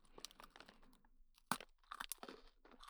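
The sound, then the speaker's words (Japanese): Someone chews a crunchy cookie in crisp bursts of crunching, pauses briefly midway, then crunches more densely and loudly, all at a quiet level. “私はクッキーおいしいもぐもぐってしてるんです。”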